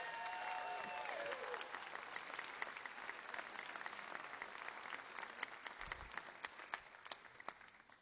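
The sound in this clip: Audience applause at a live concert: dense, steady clapping that stays even for about eight seconds, with no voices over it.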